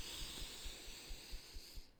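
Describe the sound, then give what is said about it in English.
A slow, deep breath in during a tapping relaxation exercise, a soft airy hiss with faint, regular low thumps of tapping beneath it, cutting off just before the end. “taking another really deep breath in”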